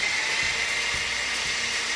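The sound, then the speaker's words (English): A blender runs steadily, mixing a liquid mixture of vegetable oil, giving a continuous whirring hiss with no pauses or changes in speed. “Now take the entire contents and pour it into the blender. Now you blend this for 40 minutes.”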